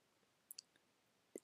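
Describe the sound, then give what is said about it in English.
A few faint, sharp computer mouse clicks, made while selecting a tab on a web page, tick out unevenly against a very quiet hiss. “So I click on the getting started tab.”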